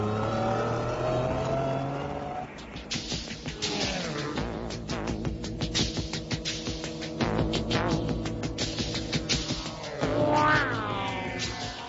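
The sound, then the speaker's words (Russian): A small truck driving off up a road with rattling and grinding: its engine drones and revs with shifting pitch, fairly quiet and steady throughout, with no talk. “грузовичок с треском и скрежетом поехал вверх по дороге”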